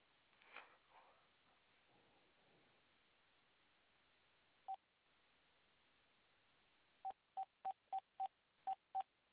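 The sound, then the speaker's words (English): Telephone keypad dialing tones: one isolated beep, then a quick run of seven short, even, same-pitched beeps after a pause, over faint hiss. “I thought you was dialing. Oh, I was dialing him again.”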